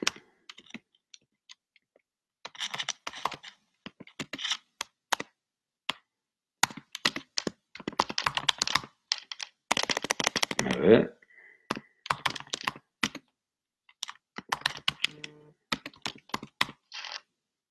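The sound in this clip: Typing on a computer keyboard: irregular bursts of quick key clicks separated by short pauses, moderately loud and fairly crisp throughout.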